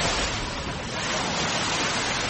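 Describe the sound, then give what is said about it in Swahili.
Ocean waves wash on the Indian Ocean shore at Mombasa Old Town by the old harbour, a steady, soft surf hiss with a gentle swell that never fully breaks off. “Hivi sasa nimesimama katika ufuo wa Bahari Hindi. Hili ni eneo la mji wa kale kwa Kiingereza Old Town katika kaunti ya Mombasa.”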